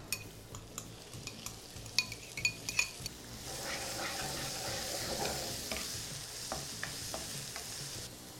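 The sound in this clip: Onions go into a pan of hot fat with whole coriander and chili flakes: a few sharp clinks of utensils come first, then a steady, fairly quiet sizzle and frying hiss with stirring scrapes, no voices.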